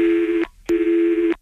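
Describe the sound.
Telephone tones play while a call is being transferred: two steady, mid-pitched electronic beeps of similar loudness, separated by a short silent gap, with no talking.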